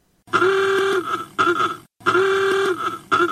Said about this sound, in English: What a fancy motor car he's driving, all decked out in those leather driving goggles.